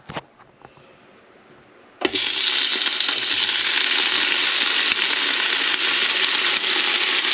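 Tofu frying in a pan: a loud, steady, hissing sizzle bursts in suddenly after a couple of seconds of quiet low rustling and then holds evenly to the end.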